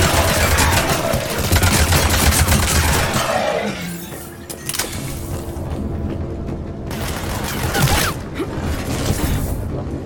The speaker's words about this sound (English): I really hope that y'all like the sound of the Avenger just firing constantly, because that's what you're gonna get for this final mission